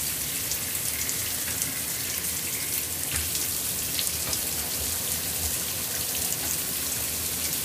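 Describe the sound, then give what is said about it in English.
Shower water running while hair is rinsed: a steady, even hiss of falling water with faint splashes, continuous throughout and moderately quiet. “I'm gonna rinse on my hair again.”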